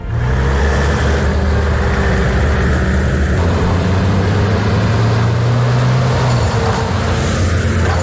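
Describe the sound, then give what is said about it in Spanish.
Heavy engine rumble of military emergency-unit trucks leaving a base at dawn to join firefighting crews. A loud, steady low drone holds throughout, with a slight swell of revving partway through. “Este es el ruido de los camiones de la UME que han salido esta madrugada desde la base de Morón en Sevilla para dirigirse a Huelva”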